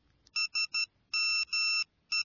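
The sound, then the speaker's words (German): A text message alert on a mobile phone, a bright electronic tone sounding three short beeps, two longer tones, then another short beep, loud and clear with no talk. “Warte mal. Ich bekomme gerade eine SMS auf mein Handy. Jemand hat mir gerade getextet.”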